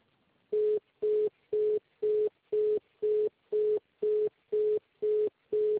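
Telephone busy tone after a dropped call: a steady run of short, evenly spaced mid-pitched beeps with silent gaps between them, and no voices.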